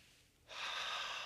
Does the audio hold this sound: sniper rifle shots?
no